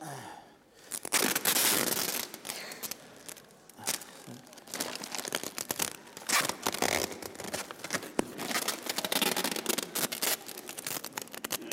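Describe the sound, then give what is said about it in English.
Sticky tape is pulled off and torn while a present is wrapped in paper. A steady rasping, crinkling noise is full of many small crackles and keeps going with brief dips in loudness. “So let's just hold that there. Excellent. Need some tape.”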